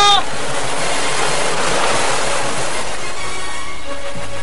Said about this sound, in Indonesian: Debur ombak ini serta angin yang berlawanan dengan arah yang kutuju menghalangi suaraku.